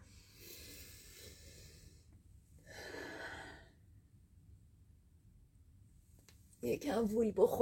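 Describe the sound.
Deep breaths during guided relaxation: two long, soft, airy breath sounds in the first four seconds, then near silence before a voice starts speaking.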